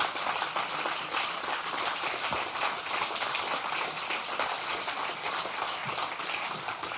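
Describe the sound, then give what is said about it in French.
Steady, dense applause from an audience welcoming a guest, continuing evenly at a fairly constant level for about seven seconds with no talking. “on a laissé d'abord les applaudissements que tu mérites”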